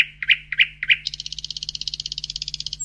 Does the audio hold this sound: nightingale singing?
yes